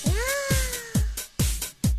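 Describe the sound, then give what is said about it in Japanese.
A human voice imitates a cat meowing, giving a drawn-out, wavering meow followed by a few shorter mews in quick succession. The voice is fairly loud and heard alone. “そのセリフシチュエーションに合わせて猫になりきって泣いていただきます。”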